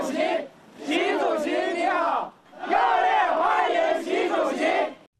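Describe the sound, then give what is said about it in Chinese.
A crowd of overseas Chinese and Chinese company representatives, waving Chinese and Indian flags, chants a loud unison welcome to Xi Jinping in two long rhythmic phrases separated by a short pause. “当地华侨华人和中资企业代表挥舞中印两国国旗，热烈欢迎习近平到访。”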